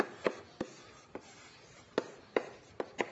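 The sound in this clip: Writing on a board during a maths lecture: faint, irregular taps and scrapes of strokes, about seven distinct marks separated by quiet gaps.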